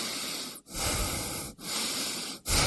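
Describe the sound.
Breathing in and out on instruction, with loud, noisy breaths that form a few long strokes. Brief pauses separate the strokes, and the in and out breaths keep an even, steady rhythm.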